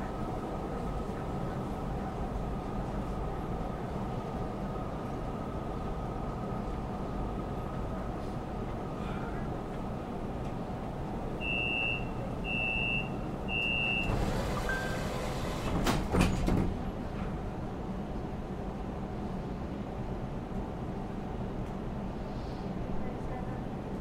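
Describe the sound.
Beijing subway train arriving at Zhichunli station: a steady, low rumble of the moving car runs throughout, broken by three short electronic beeps and then a brief, loud rush of noise.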